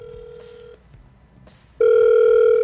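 A telephone rings back while a call is being redialed. A steady ringing tone plays, breaks off for about a second, then returns much louder and holds to the end.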